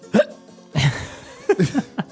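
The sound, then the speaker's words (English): Several hiccups come at uneven intervals: short sharp voiced catches of breath, moderately loud, with a little extra breathiness after some of them and no talking. “It's a singhiozzo. That's hiccup.”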